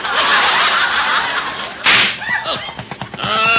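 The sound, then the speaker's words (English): A car tire blows out with a single sharp, loud pop that cuts through a steady rushing hiss, followed by a stretch of snickering laughter. “Oh, splats. Help, they got us in the rear. Mayor, we're shot. Bob, that was a flat. We have a flat.”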